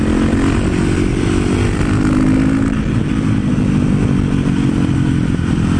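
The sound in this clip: A supermoto motorcycle being ridden on the road, its engine a loud, continuous raspy drone with strong low harmonic tones that shift only slightly in pitch, with no talk over it.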